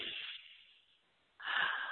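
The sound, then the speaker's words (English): A deep cleansing breath drawn into the abdomen, heard as two airy breath sounds separated by a brief quiet gap, the second louder and fuller than the first. “Now, I want you to take a deep cleansing breath with me, filling your abdominal area full of breath.”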